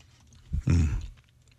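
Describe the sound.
Chewing of Skittles candy during a taste test, a short burst of crunchy, wet mastication lasting about half a second, loud and heard alone without talk.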